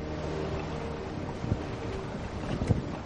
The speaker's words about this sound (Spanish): En el barco, Steve manipula algo en la proa.